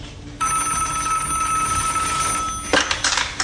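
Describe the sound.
A telephone rings with a single long, steady electronic tone, followed by a few short clattering sounds.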